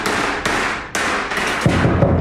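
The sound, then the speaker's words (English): Hammer blows on a piece of art in a workshop: a few sharp, loud strikes at irregular intervals, followed by a denser run of duller thuds toward the end. “hammers on a piece of art.”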